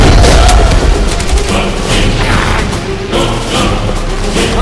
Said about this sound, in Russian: Красноармеец, сраженный пулей, не успевает бросить гранату. Она взрывается в его руке.